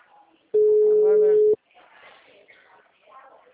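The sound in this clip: A single steady ringback tone from an unanswered telephone call lasts about a second, with faint voices murmuring before and after it.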